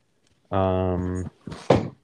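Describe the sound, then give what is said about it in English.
A chair bumps with a short, hollow knock or two, coming just after a stretch of talking. “That was the chair.”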